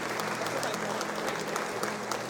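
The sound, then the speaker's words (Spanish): Applause from an audience at a church mass, given in thanks to the choir. The clapping is dense and steady and stays at an even loudness across the whole short stretch, with no breaks. “Les voy a pedir un fuerte aplauso para el equipo de los monaguillos. Otro para el coro también. Otro aplauso para el coro.”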